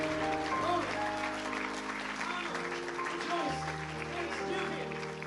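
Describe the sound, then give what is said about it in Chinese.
An audience claps at a church service, offering applause to God. The steady clapping runs the whole length beneath sustained keyboard chords, with voices mixed in. “让我们为神拍手，感谢神在我们今天当中所做的。”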